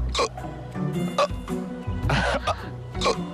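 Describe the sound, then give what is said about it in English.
A person hiccuping after drinking champagne: a few short, sharp, throaty bursts spaced roughly a second apart over a faint low background hum. “Got the hiccups.”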